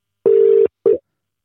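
Telephone ringing tone on an outgoing call: a steady, low buzzing tone lasting under half a second, then a second short burst that cuts off early. No voices are heard.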